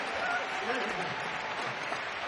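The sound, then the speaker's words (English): Audience applause for a concert's road crew, a dense, steady wash of clapping and crowd noise that holds at an even level for the whole stretch without breaks. “So I want you to say the greatest applause for the best crew on the planet!”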